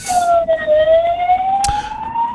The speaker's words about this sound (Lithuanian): Palaukit, čia gaisrinė. Čia nepasius. Oi, praleiskit gaisrinę, sustokit saugiai viską.